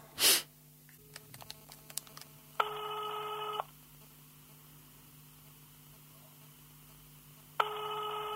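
Telephone dialing: a few quick faint button clicks are followed by two long, steady ringback tones separated by a pause. A short sniff-like noise comes at the start, and no one speaks.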